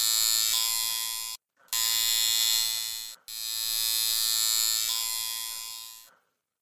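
A malfunctioning tattoo ink gun buzzes in three sustained, high-pitched electric bursts separated by brief cutoffs, as if stalling and restarting. The final burst fades out.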